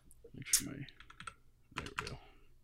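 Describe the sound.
Someone types a number on a computer keyboard: a few quiet, sharp key clicks in short clusters, with faint voice-like sounds between them.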